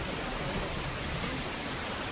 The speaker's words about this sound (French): Et la cascade.